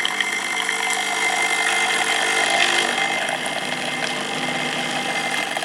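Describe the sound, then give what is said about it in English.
A coffee machine runs with a steady, loud, grinding whir that stays constant throughout, with only slight fluctuations and no voices. “Something to do with a drink, isn't it? Yeah, it's a coffee machine.”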